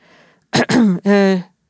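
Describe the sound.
A man clears his throat on a bus while lifting a phone to his ear: two short rough bursts followed by a longer voiced, throaty hum.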